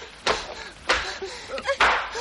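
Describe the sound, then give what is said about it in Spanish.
A woman is slapped in a 1976 Japanese drama film scene, heard as a few loud, sharp smacks spaced through the moment, with brief vocal sounds between them. “La golpea.”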